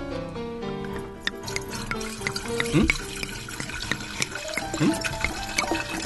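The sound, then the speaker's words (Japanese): Sake pours into small cups at a drinking party, with a couple of short gurgling pours rising out of steady chatter and clinking as several people talk over it. “では皆さんにちょっとお酒を継ぎさせていただきたいと思います”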